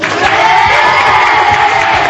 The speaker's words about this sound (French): on peut les applaudir.